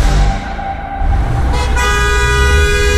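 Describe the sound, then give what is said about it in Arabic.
Car horns honk in a traffic jam: sustained, loud tonal blasts over a steady rumble of road noise, with a brighter horn joining partway through. “تعبان من الزحمة؟”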